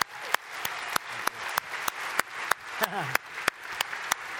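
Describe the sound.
Church audience applauding to welcome a guest author, with a steady wash of clapping punctuated by regularly spaced sharp claps throughout; a brief voice calls out midway.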